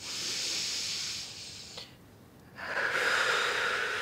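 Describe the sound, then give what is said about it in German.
Airy nasal breathing of a nervous patient breathing in through the nose during a medical examination. Two long hissing breaths are separated by a brief quiet pause, and the second is louder. “Lassen Sie uns mal gemeinsam durch die Nase einatmen, ja?”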